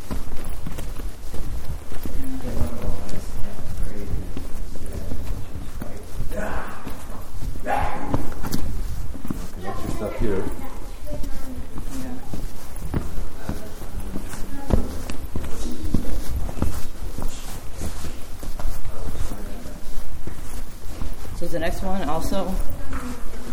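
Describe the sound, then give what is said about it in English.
Wind blows up a valley and is sucked through a tunnel, making a loud, gusty, continuous roar. Many footsteps walk into the wind, and people talk at intervals throughout. “I'm walking into the wind now. The wind is blowing up the valley and it's sucked through the tunnel.”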